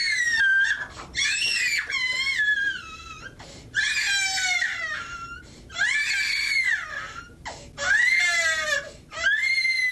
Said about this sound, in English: you know just how hard it can be to listen to the sound of a baby crying. The sound of a baby with colic is worse.